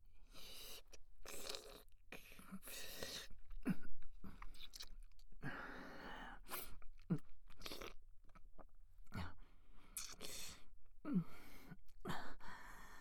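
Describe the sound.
Crunchy biting and chewing on a leg: many irregular, moist crunches and chomps repeat steadily throughout, with fairly even loudness.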